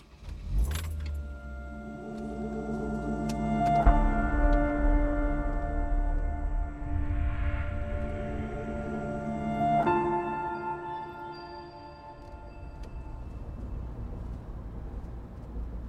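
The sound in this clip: A car drives through the Groningen countryside over the Grauwe Dijk, with a steady engine hum and road rumble that swells slightly and eases off near the end.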